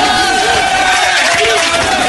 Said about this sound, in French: Bravo! Bravo! Debout, debout, debout! Standing ovation, debout!